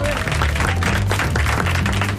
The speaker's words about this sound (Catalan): Ah, és veritat, un aplaudiment!